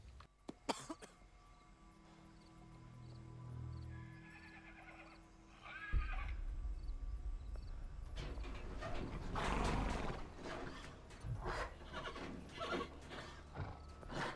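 A horse whinnies inside a shaking horse trailer. Hoof clatter and dense, thumping noise grow louder through the second half.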